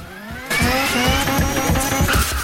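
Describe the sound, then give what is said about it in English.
Mazda RX-7 engine bursting into a loud, sustained roar as it accelerates on nitrous oxide. After a brief near-quiet, the sound erupts suddenly and holds with a dense, whining harmonic drone. “The RX-7 shoots forwards like a rocket, overtaking the Skyline.”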